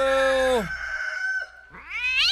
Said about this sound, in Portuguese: Ó o gato já... Ó o gato tá brigando.